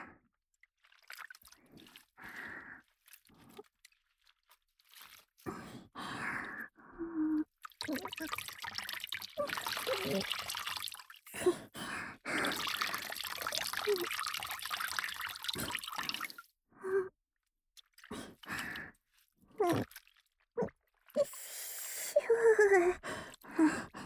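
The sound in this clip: Water trickling and dripping as a wet hand towel is wrung out before an ear-cleaning session, with soft intermittent drips and splashes separated by quiet pauses.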